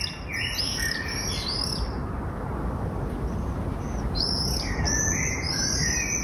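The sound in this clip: Shrill screams of common swifts nesting under roof tiles come in two bursts of high, piercing calls, the first fading after a second or so and the second starting near the end, over a steady background hiss.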